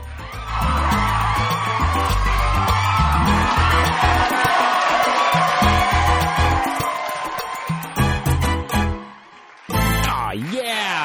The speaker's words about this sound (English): Now let's give it up for that band.